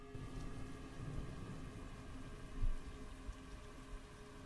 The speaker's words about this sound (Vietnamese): Tiếng mưa rơi lộp độp, làm cho người ta cảm thấy xót ruột.